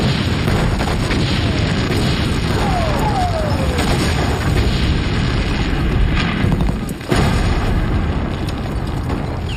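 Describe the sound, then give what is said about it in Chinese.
Artillery batteries fire their cannons in rapid succession, a dense, loud and continuous rumble of overlapping booms with no pause, briefly dipping once near the end. “各炮台注意，急速射击，开炮！”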